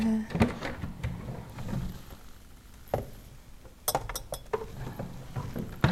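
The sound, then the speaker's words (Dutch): Clinks and knocks as a container is put back into a kitchen cupboard. A few sharp taps and rattles sit over a low, steady background rustle. “Deze ga ik terugleggen in mijn kastje.”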